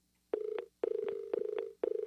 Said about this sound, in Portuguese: Caiu realmente caiu a linha. É uma pena, mas vai tentando falar conosco.